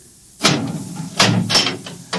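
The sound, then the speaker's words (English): A door being opened, heard as a few dull clunks and knocks from its latch and hinges. The sounds are fairly loud and irregular, with no talk. “Open the door.”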